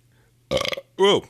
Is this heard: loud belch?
yes

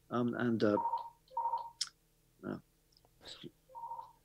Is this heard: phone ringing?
yes

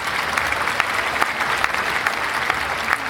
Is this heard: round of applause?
yes

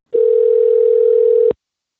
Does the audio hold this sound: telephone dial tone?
yes

